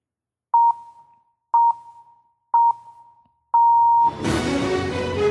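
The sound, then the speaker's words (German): A radio jingle fired from a jingle machine: four short, even electronic beeps about a second apart, the last one held longer, give way to a loud, full burst of jingle music. “Meine Jingle-Maschine kann natürlich nur funktionieren, wenn ich sie auch einschalte. Das ist zwingende Voraussetzung. Das heißt, wenn ich hier auf den Knopf drücke, müsst ihr jetzt was hören.”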